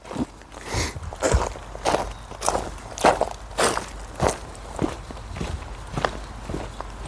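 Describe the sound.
Footsteps of people walking outdoors through a wildlife park past an herb garden and a mouflon enclosure: a steady, even series of many soft steps at a relaxed walking pace.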